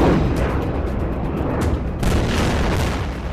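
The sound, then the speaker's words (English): Loud booms and rolling rumble from a massive barrage of incoming rockets during intense fighting in a Middle East war, with many overlapping heavy impacts and sharper blasts over a constant roaring background. “We have just had a massive barrage of rockets coming in here.”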